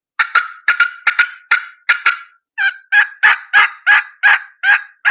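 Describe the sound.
Turkey call worked by a hunter, a quick run of many sharp, short cutting notes, then a steadier, evenly spaced series of louder, longer excited yelps, loud and alone.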